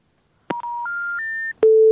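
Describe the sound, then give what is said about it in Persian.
Three loud electronic tones stepping upward in pitch, one after another, ring out on a telephone line after a call drops. A click follows, then a lower steady tone ends with another click, all heard alone without talk. “متاسفم که تماس اینا قطع شد”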